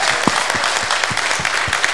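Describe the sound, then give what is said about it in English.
Loud rhythmic clapping from a church audience during a sermon, with sharp claps landing in a steady, even beat and no voices over them. “The brothers, you need to clap for me.”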